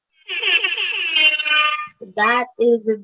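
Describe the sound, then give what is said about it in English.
An alarm sound effect plays as a loud, sustained buzzing tone with a rich harmonic edge for under two seconds, followed by a few short, separate bursts of sound. “I have an alarm for that.”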